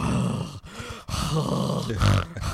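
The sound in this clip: A voice imitating heavy breathing into a microphone: loud, rough, continuous huffing and groaning breaths with a couple of brief breaks, harsh and distorted from being too close to the mic.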